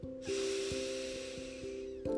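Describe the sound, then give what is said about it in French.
A deep breath drawn in during a guided relaxation exercise: one long, even, airy inhale lasting about two seconds, starting and stopping cleanly. “Puis vous pourrez prendre une grande inspiration”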